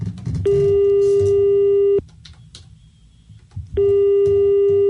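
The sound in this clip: A telephone busy tone after a call to a radio studio dropped: a steady, buzzing electronic tone in two long stretches separated by a brief gap, over a faint background hiss.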